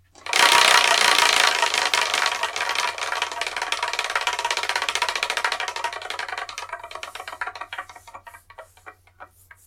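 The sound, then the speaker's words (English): A Wheel of Fortune style prize wheel with 10 slots is spun: a loud, dense burst of ratcheting clicks that gradually thins out and slows, the ticks growing sparser and fainter until the wheel comes to rest. “The Wheel of Manga is a Wheel of Fortune with 10 slots on. We're going to do is spin the Wheel of Manga.”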